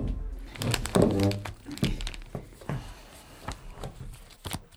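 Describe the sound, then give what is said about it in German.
Photos being taken out of an envelope, heard as papery rustling and crinkling, a cluster of louder crinkles early on followed by softer, scattered rustles and a final sharp crinkle. “Er überreichte ihnen einen Umschlag mit Fotos, die Justus sogleich neugierig herausholte.”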